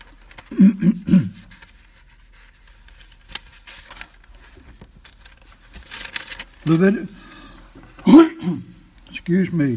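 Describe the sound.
A speaker with something stuck in the throat clears it repeatedly: rough, throaty bursts, one cluster early on and several more near the end, separated by quiet.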